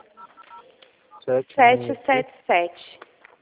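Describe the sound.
Telephone keypad tones as a toll-free number is dialed: a few short electronic beeps, with a voice speaking over them.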